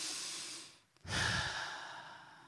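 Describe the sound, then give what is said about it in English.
A deep breath drawn in through the nose to smell a rose: a loud, breathy hiss, a brief pause, then a stronger inhale that slowly fades, with no talk. “and breathe it in, and you know what it is, the smell of rose”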